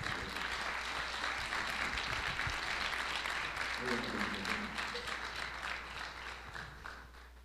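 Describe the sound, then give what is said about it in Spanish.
Audience applause at a spirits and distillates congress award ceremony, a crowd of many hands clapping steadily before the sound gradually thins and tapers off toward the end. “Y quisiera que este aplauso también viniera para su señora esposa, por favor.”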